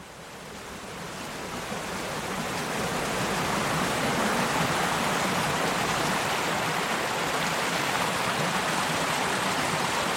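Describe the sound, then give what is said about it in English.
A little trickling stream on the Gower peninsula, running down from the central highland, gives a dense, even wash of flowing water that swells in over the first two seconds and then holds steady alone, with no voices. “This is the sound of a little stream that trickles its way from”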